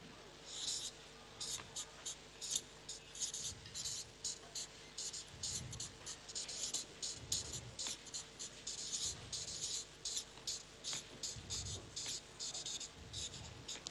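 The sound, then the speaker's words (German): Pen scratching quietly while someone writes something down: many short strokes in an uneven rhythm, continuing throughout. “Ich schreibe das mal hier auf.”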